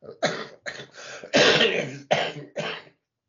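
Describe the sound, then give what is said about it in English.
Six harsh coughs in quick succession. The fourth is longer and rougher than the rest, and no talk is heard around them. “Apologies for the coughing.”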